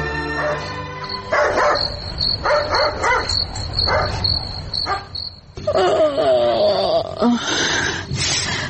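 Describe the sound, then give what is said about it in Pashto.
A house dog barks repeatedly in the middle of the night, with many sharp, loud barks in uneven bursts. A steady high chirping of crickets runs underneath throughout. “ګورم چې دا سپی ولې غاپي، داسې نه وي چې خدای مکړه کور ته غال راغلی وي.”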